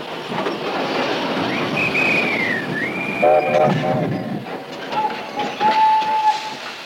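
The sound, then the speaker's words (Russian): An armoured train rumbles at Grebeshki station near a wartime front, its rail noise steady beneath a long, high whistle that dips in pitch. Several shorter, lower whistle tones follow over the continuing clatter. “И по чистой случайности на станции Гребешки остановился бронепоезд командарма Седых.”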